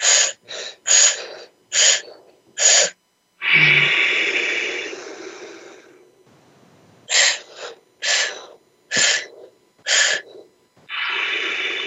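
A breathing exercise, in through the mouth and out through the nose: a rapid series of short, sharp breaths followed by a long, rushing breath, the pattern repeating twice with no talking.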